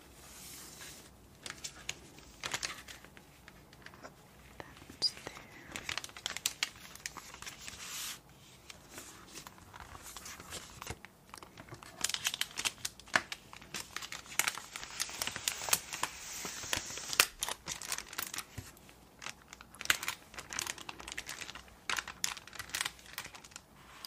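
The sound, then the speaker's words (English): Plastic packaging crinkles and crackles as an item is slipped inside, a soft, steady stream of many small crisp rustles with no voice. “So let me put this in the packaging.”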